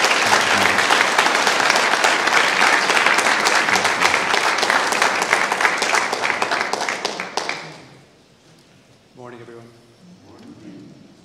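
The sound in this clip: An audience warmly applauds a mission partner serving in Senegal as he is welcomed up to read. Dense, steady clapping lasts about seven seconds and then fades, and a man starts speaking.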